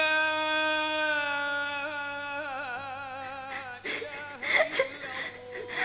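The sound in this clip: A girl cries in soft, broken whimpers and shaky gasping sobs. Before her crying, a long sustained melodic vocal tone wavers and then fades out.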